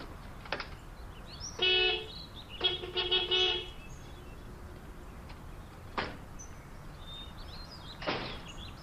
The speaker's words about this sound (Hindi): क्या हुआ, इतने हॉर्न क्यों बजा रहे हो?